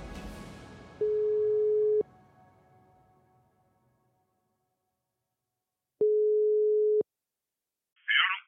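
Telephone ringback tone while calling a number: two steady, mid-pitched beeps, each about a second long and about five seconds apart, separated by near silence, then a brief burst of noise at the very end.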